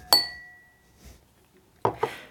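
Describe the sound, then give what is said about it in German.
Two glasses clink together in a New Year toast, a single bright chime that rings on with a high, pure overtone and slowly fades, followed later by a couple of softer, shorter knocks. “Zwei Gläser im Dreivierteltakt.”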